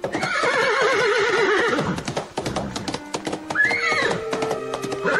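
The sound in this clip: Horses at a horse race on the outskirts of Buenos Aires: loud, wavering whinnies and neighs over a dense, continuous clatter of hooves, with several animals calling over one another throughout.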